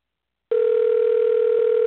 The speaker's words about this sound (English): So we're going to dial her number, and you guys get to listen in.